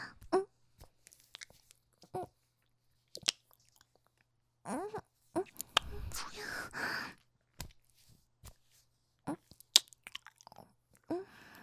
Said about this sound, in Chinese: 好吃吗？甜的，我也尝尝。